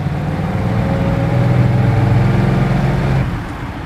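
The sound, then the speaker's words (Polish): A car engine as the car drives off at speed on an uneven road: a steady mid-low motor hum that grows a little louder midway, holds, then eases off near the end, with no voices. “Sam siadł koło szofera i ruszyli, biorąc znaczną szybkość pomimo niezbyt równej drogi.”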